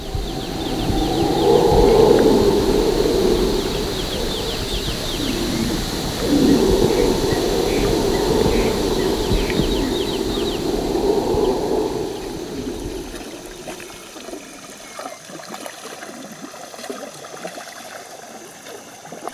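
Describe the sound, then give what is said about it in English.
Jungle ambience at night when it is not raining: a dense, continuous chorus of insect and animal calls with busy chirps, fuller through the first part and then thinning out. “When it wasn't raining, the sound of the jungle was just so much more intense and beautiful and psychedelic than anything that I could have ever imagined.”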